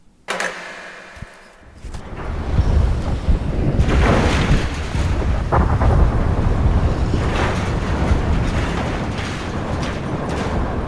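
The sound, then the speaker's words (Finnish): The deep, roaring rumble of tectonic plates in an earthquake swells up after a brief quiet start, then stays loud and steady as a dense, noisy roar. “Nyt syvennytään mannerlaattojen rytinään.”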